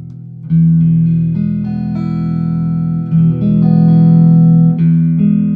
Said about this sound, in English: Now listen in between the two and you can hear both pickups.